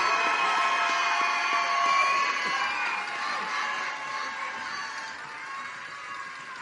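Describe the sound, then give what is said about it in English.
Loud, sustained crowd cheering at a student contest in Philadelphia, with shrill shouting voices and broad noise that stays strong for several seconds and then eases slightly toward the end. “And keep the applause going for that whole group, contestants 21 through 30.”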